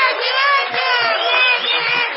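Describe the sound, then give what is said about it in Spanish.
Theatre audience giving an ovation: a dense, loud and steady crowd roar of cheering lasting about two seconds. “Los convido a saludar con una gran ovación a Patricio Bartón.”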